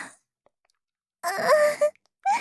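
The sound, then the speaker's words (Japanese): A person starts to cry, breaking the silence with a short wailing whimper whose pitch climbs, then a second sob begins right after. “うん、出した、泣き出した”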